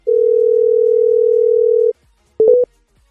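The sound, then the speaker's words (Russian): A telephone dial tone hums as a steady, loud, unbroken note for about two seconds and then cuts off. After a short silence, a brief burst of a few quick beeps follows as a number is dialed. “Набираю.”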